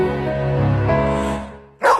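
A single loud, short dog bark comes near the end, after a stretch of steady sustained tones.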